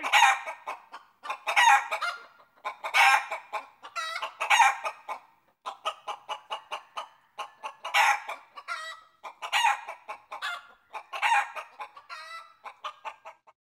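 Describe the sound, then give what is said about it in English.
Chickens cluck and a rooster crows in a long run of loud, closely repeated calls that come in uneven bursts, with no voices. “I hear some chickens.”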